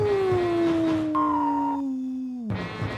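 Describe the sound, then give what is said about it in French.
Wolves howling: long, sustained tones that glide slowly downward in pitch, with a second overlapping howl joining partway through, loud and without talk. “C'est chant des loups.”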